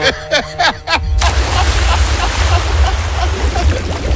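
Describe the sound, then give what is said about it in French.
A person dives into warm sea water with a splash about a second in, and a steady rushing, bubbling wash follows. Brief vocal sounds come just before the plunge. “Bon, en tout cas, ça fait du bien de plonger parce qu'il fait super chaud. Ouais, c'est trop bon, c'est frais.”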